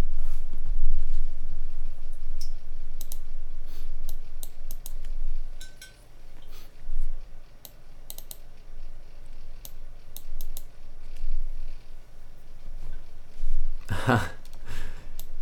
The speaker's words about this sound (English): Red switch? Yeah, I have reds and browns. I like reds. Reds are nice.